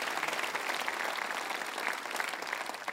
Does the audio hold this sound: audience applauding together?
yes